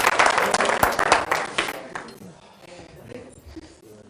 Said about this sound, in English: Give him a round of applause for that.